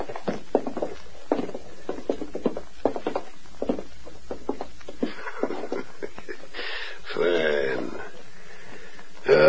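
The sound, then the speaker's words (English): Footsteps of two men walking toward a safe while held at gunpoint: a run of firm, steady steps over several seconds, followed by other, quieter sounds. “Get over beside your brother. Now both of you walk toward the safe.”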